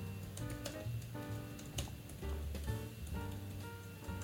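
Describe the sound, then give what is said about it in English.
Typing on a computer keyboard: a few sharp, scattered key clicks over a soft, steady tonal background, quiet overall and without voices. “I'm busy typing.”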